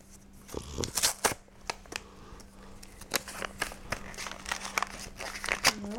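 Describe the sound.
A Christmas present from Santa is unwrapped, the paper crinkling and tearing in irregular bursts. Sharp rustles and crackles come at an uneven rhythm.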